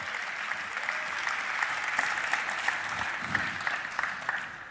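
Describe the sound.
A conference audience applauds as speakers are welcomed onto the stage: dense, steady clapping throughout, easing slightly at the end.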